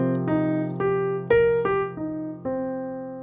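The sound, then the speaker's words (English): A C minor seventh arpeggio played as single melodic notes in a steady rhythm, climbing upward and then stepping back down, each note ringing over a sustained low tone. “So we're going to play our C minor seventh arpeggio.”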